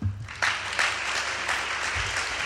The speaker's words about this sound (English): And feel free to clap now.